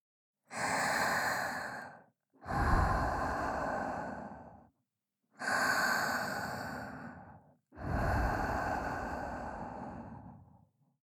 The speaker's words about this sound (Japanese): 先ほどと同じように深呼吸をして、